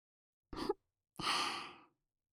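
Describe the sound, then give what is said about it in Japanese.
A girl's breathy sigh: a short, airy breath is followed after a pause by a longer, soft exhale that gradually trails away. “わかった。好きなんですね。女の子の吐息。”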